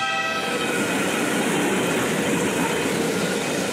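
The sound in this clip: Train passing a railway level crossing, a loud, steady rumble and clatter of rolling wagons that fills the whole clip with no pause.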